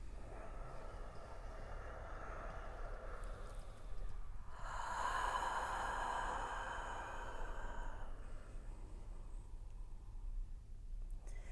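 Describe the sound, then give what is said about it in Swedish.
A deep breath drawn in slowly, a soft, broad rush of air that swells for a few seconds and then fades, heard alone over a low, steady background hum. “Så vi tar ett djupt andetag.”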